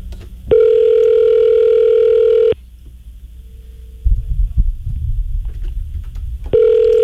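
Telephone ringback tone while a call is placed: one long, steady electronic tone, a pause filled with soft rustling handling noise, then the tone starting again.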